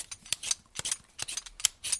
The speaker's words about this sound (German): Spargel muss man zuerst schälen.